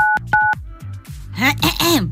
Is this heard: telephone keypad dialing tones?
yes